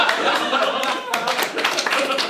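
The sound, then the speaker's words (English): Audience applause during a stage rehearsal: a dense, brief patter of clapping with voices talking over it. “Don't applaud that.”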